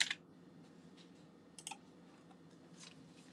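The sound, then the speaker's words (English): Faint typing on a computer keyboard: a few scattered key clicks at irregular intervals over a low, steady background hum. “I'll go ahead and type it in there myself to show you guys.”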